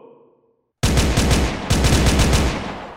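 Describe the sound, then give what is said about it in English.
Pistols, rifles and automatic weapons open fire with a sudden loud burst after near silence. A second dense volley of rapid shots follows, and the roar tails off gradually. “They're shooting at us! Pistols, rifles, and even automatic weapons were firing up at us.”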